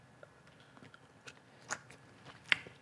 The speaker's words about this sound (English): I don't like this kind of potato. Should we try it? Yeah. Just bite into it? Like an apple? Put it in our mouth.